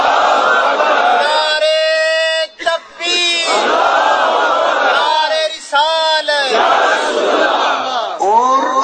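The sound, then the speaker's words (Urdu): A crowd at a religious sermon chants Allahu Akbar in unison after a takbir call. The loud massed voices repeat the phrase a few times, with brief breaks between the shouted chants. “نعرے تکبیر”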